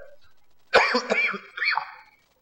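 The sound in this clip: A person coughs during a religious talk: two harsh, raspy bursts, the first louder and longer, followed by quiet.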